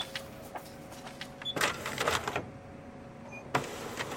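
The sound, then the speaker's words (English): A slow Xerox copier in a gym whirs and clunks through a short motorized run and then a sharp clack, over a faint steady hum. “It's a slow copier because it's a Xerox machine in a gym.”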